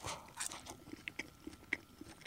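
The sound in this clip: Crisp biting and chewing of grilled food by a person, a few sharp crunches over soft, wet mouth sounds, quiet and without talk.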